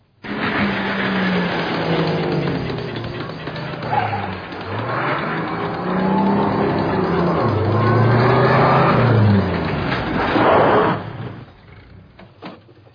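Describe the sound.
A car pulling away and accelerating, its engine pitch climbing and dropping through several gear shifts over a steady rumble for about eleven seconds before it cuts off abruptly.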